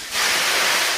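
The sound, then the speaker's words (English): Water thrown onto hot coals in a large, new, state-of-the-art sauna with eucalyptus at 92 degrees bursts into a loud, sharp steam hiss after a brief quiet moment, holding as a bright, even sizzle to the end. “Whew, and that is the noise of water hitting the hot coals.”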